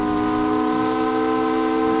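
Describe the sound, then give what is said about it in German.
Siren of a steamship tooting as it enters Blanche Bay: one loud, sustained, reedy tone with rich harmonics, held steady from start to finish. “Früh am nächsten Morgen fährt der Dampfer unter gleißendem Sonnenlicht, fröhlicher Kapellmusik und lautem Tuten der Sirene in die Blanche-Bucht ein.”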